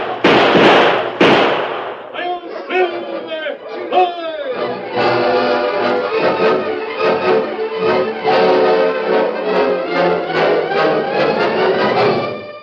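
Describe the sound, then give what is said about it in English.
Sharp gunshots crack out in an old western drama as men fire at a fleeing rider: a few loud blasts open, then excited shouting voices and dense, busy sound carry on steadily. “Shoot him, boys. Don't let him get away.”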